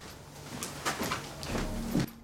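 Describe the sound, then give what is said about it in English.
A door closes behind departing visitors in a police drama, with a few soft knocks and shuffles building to a firmer thump near the end, no voices. “Wes closes the door behind them.”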